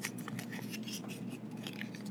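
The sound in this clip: A sheet of paper being folded again and again, heard as soft, crisp crinkles and rustles that come in a few quiet bursts.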